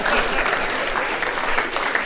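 Audience applause at a stand-up comedy show, dense steady clapping from a crowd, loud and even for about two seconds.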